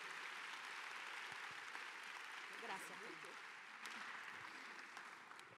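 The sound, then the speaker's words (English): Audience applause welcomes a reverend onstage at a Hispanic Heritage Month celebration: a dense, steady wash of clapping runs evenly the whole way, then cuts off abruptly at the end. “put your hands together and let's welcome the Dr. Reverend Gabriel Saguero”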